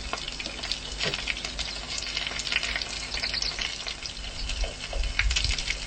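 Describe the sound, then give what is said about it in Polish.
Battered, spiced shashlik frying in oil in a pan, a fairly faint, steady crackling sizzle dotted with scattered small pops. “Jeżeli oleju mamy troszkę za mało, bo już się wysmażył, można troszeczkę dolać. Ciasto w czasie smażenia wydziela aromat z tych wszystkich przypraw.”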